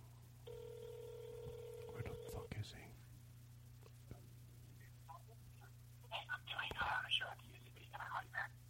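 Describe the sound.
A telephone ringback tone sounds on a prank call as a single steady ring of about two seconds. Faint voices follow it.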